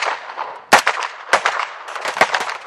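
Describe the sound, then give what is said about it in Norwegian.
MP5 submachine gun fire from police students training at Kalland shooting range in Sveio: several sharp, loud cracks ring out, followed by a quicker cluster of shots near the end. “Vi er på skytetrening på Kalland skytebane i Sveio. Politistudentene som har praksis i Haugaland og Sunnhordland politidistrikt, trener skyting med MP5 maskinpistol.”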